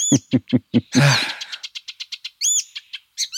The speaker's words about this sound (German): Ich würde sagen, wir hören ihn nochmal an. Ich habe auch extra schön 20 Sekunden hier, volle Gelbspötter-Power.